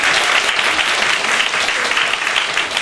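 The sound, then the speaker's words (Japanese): Loud, dense crowd applause, a steady roar of many hands clapping at once with no single claps standing out, continuing unbroken throughout. “拍手。”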